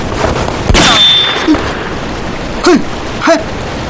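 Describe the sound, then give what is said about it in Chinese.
A gunshot fired in a small enclosed space cracks once as a sharp, loud burst, followed by a thin lingering ringing tone and a few fainter, shorter knocks afterward, with no talk. “开枪之前也不通知一声，这么小的空间弹头乱飞会伤到人的。”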